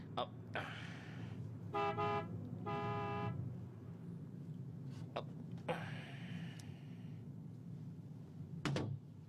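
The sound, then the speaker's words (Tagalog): A car horn honks on a road at someone walking along its edge: two short, bright toots close together over a steady low vehicle rumble, with a few other brief knocks and a later tonal sound. “Businahan ko siya.”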